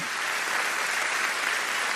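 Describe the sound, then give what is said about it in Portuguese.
Steady, dense applause from an audience as a preacher, mid-sermon, invites them to applaud the Lord, a continuous even wash of clapping that holds at a constant level throughout. “Você pode aplaudir o Senhor, gente?”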